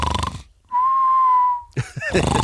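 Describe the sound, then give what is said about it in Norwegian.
A person imitates the snoring of someone with sleep apnea, producing a single steady whistled tone held for about a second, with voices before and after it. “Så han snorket sånn.”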